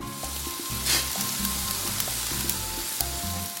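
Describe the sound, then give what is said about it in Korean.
Steady, loud sizzling of rice cakes pan-frying until golden. The rice cakes had been soaked and patted dry first, and the frying crackles continuously without talk. “팬에 떡을 올리고 노릇하게 구워준다.”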